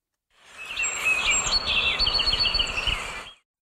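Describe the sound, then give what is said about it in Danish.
Song of a North American song sparrow, a small brown bird with a grey and brown-striped head: a steady run of high chirps and trills over a constant background hiss. “Det er lyden af en nordamerikansk sangspurv, en lille brun fugl med et gråt og brunstribet hoved.”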